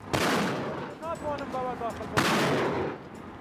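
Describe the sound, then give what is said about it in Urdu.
Artillery shelling as Kurdish troops advance toward Sinjar, Iraq: two heavy, loud booms, each followed by a long rumbling roar. “آج الگ صبح کرد فوجیوں نے گولہ باری کرتے ہوئے سنجار کی طرف پیش قدمی شروع کی.”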